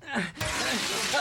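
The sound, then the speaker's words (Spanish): A sharp crash of car window glass being kicked in and shattering on a car stuck at a cliff edge with its door jammed. A bright burst breaks into a sustained noisy spray of fragments, with a voice briefly heard. “¡Quítate de allí y yo patearé el vidrio!”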